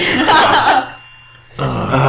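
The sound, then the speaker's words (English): People groan in disgust at a crude hypothetical question: two loud, drawn-out swells of groaning voices separated by a brief lull. “And so it begins. All of the groaning.”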